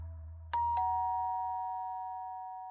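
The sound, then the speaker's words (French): A doorbell gives a two-tone chime: two quick strikes, then the second tone rings on and slowly fades over a faint low hum. “il est 17h15 quand ça sonne chez Sandra Viers”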